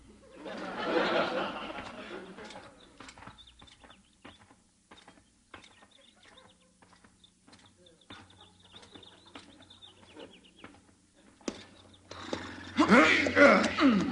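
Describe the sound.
Horses whinny as riders set off across a ranch spread: people talk over soft shuffling, framed by a noisy burst at the start and a loud, high whinny near the end.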